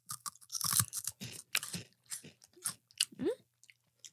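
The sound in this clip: Crunching and chewing on crispy green bean snacks: many irregular, crisp bites and wet chews following one another in quick bursts, faint and close with no talk over them.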